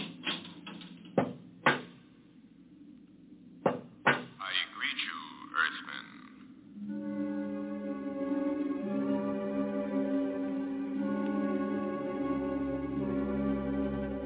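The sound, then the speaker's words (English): Metallic clicks and clunks of a lock being worked open: a few sharp, separate clicks at an uneven pace, then a sustained tonal musical drone takes over. “I think they're opening the lock.”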